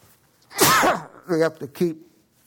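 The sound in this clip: A single loud, explosive human sneeze bursts out, and a few short spoken syllables follow right after it.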